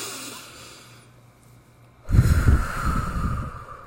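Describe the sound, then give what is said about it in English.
A deep breath taken after a quiet pause: a loud, breathy rush of air starts abruptly and carries on for well over a second, tapering slightly toward the end. “Take a deep breath. Let's take one right now.”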